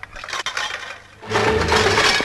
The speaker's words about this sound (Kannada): ಅಬ್ಬಬ್ಬಾ, ಇಷ್ಟೊಂದು ಪಾತ್ರೆ ಸಂಜೆವರೆಗೂ ಸಾಕಾಗುತ್ತೆ.